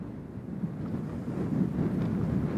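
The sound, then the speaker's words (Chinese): Strong typhoon wind roars across Sansha fishing port in Xiapu as the typhoon makes landfall, a dense, steady low rumble that builds into heavier buffeting gusts in the second half. “那随着这个台风白海豚的这个登陆呢，三沙镇已经完全被笼罩在十级风圈半径的这个范围之内了。”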